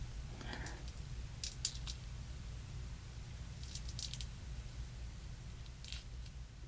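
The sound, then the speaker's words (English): Faint sticky peeling and crackling as dried glue is pulled off a hand, a few short bursts over a steady low hum, very quiet and close. “the glue has mostly dried on my hand. I'm not sure if I made it thick enough to get a good peel, but we'll see.”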